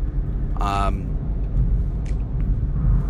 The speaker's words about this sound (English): Excuse me, I'm also in traffic, so I gotta be careful I don't hit anybody.